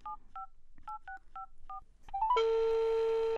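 A telephone is dialed with a quick series of paired keypad beeps, then a steady, loud ringing tone follows and holds.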